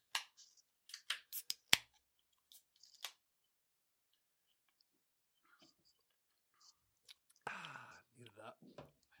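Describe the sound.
Beer cans cracking open: a cluster of sharp clicks and pops near the start, one especially loud, then near silence before people begin talking.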